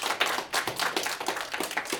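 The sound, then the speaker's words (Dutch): An audience claps for school student actors, a loose patter of individual hand claps with uneven rhythm and varying loudness. “De acteurs, geef ze een heel groot applaus.”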